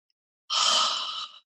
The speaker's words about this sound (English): Inhale quickly, exhale slowly. One more, inhale,